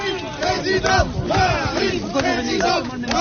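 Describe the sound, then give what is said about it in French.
A hostile crowd of Whirlpool factory workers at the Amiens plant shouts and jeers during a visit by Emmanuel Macron. Many voices yell over one another in a loud, continuous roar with no pauses. “Accueil houleux pour Emmanuel Macron sur le site de l'usine Whirlpool d'Amiens”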